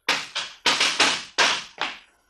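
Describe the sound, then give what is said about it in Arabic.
A door being broken in, as a sound effect in an Egyptian radio drama: a rapid series of heavy, crashing bangs, each decaying quickly, with the last blow fading into quiet. “مفيش حل بقى غير ان انا اكسر الباب.”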